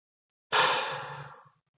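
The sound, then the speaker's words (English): A single powerful exhale during a guided breathing meditation, a loud breathy rush that starts abruptly and fades over about a second, heard alone. “Hold it for a beat or two. And a final powerful exhale,”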